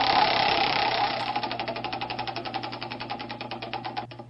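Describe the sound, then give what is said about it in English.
The Wheel of History prize wheel spins with a whirring rush that turns into a long run of many rapid, even clicks, which continue steadily before stopping abruptly. “Continuing on, let me give the wheel another try, shall we?”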